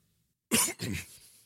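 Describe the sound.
A man clears his throat and coughs: two rough, loud bursts in quick succession, the second trailing off into a fainter rasp.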